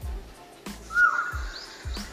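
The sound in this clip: An Asian koel calling in the evening: one clear whistled note stands out, followed by a fainter, higher call, over a steady hiss with a few low thumps.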